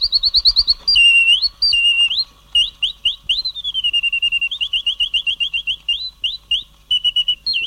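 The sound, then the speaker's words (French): A small mechanical toy bird, decades old and from America, chirps in bright, high whistling notes: many rapid repeated trills and short sliding warbles, loud and alone. “Laure Duvine m'a envoyé un petit oiseau mécanique que je vous ai apporté, que je vais vous faire entendre.”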